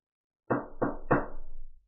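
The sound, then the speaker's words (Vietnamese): Three firm knocks land on an office door in a training hall. Each has a short resonant tail, they come in a steady rhythm, and no one speaks. “La Phùng đi tới gõ cửa.”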